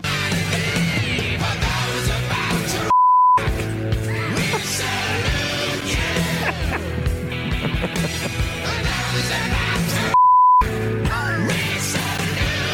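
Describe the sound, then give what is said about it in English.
Two censor bleeps, steady mid-pitched tones, cut into loud rock songs to mask the word rock. Each bleep briefly replaces the dense band and vocal sound before the music resumes. “If we bleeped out the word rock in these songs, how much it changes the meaning of the song.”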